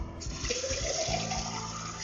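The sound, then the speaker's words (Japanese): Boiling water poured onto Phoenix Dancong honey orchid oolong leaves for brewing: a short, steady splashing stream of liquid, fairly soft, with a faint tone that rises slightly as it fills. “熱湯を注いでいきます”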